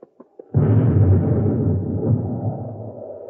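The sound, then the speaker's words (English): A blast from a spaceship coming in low and shooting. A few faint pops lead into a loud, deep, rumbling explosion that holds for several seconds and slowly fades. “Hey, Commander, somebody or something shooting at us. It's a spaceship coming in low. This time they won't miss.”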